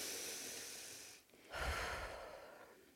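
Slow, audible breathing from one person: a long soft breath, a brief pause, then a second airy breath, quiet and alone without talk.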